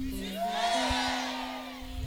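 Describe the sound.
A church audience shouts together in unison, a loud sustained swell of many voices that rises and fades over a couple of seconds.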